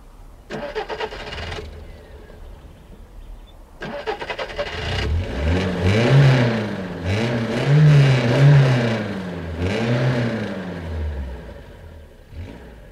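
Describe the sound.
A car engine starts after a loose ignition cable is fixed. A few clicks and cranking sounds come first, then the engine catches and revs up and down several times in loud surges before settling toward idle. Nobody speaks.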